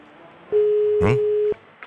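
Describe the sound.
A telephone call rings out during a morning check to see whether someone is awake: one steady mid-pitched tone lasting about a second, with a brief burst of voice over it and another at the end.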